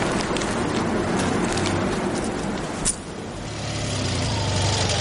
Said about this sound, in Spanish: Una moto con dos ocupantes circula por la carretera.